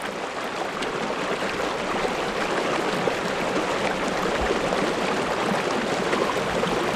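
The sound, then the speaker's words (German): A small river flows in the hinterland of Nice in southern France, its water rushing in a steady, unbroken wash of broad hiss with no pause or change in level throughout. “Das, was du da hörst, ist der Loup, le Loup, ein Flüssli im Süden von Frankreich, im Hinterland von Nizza.”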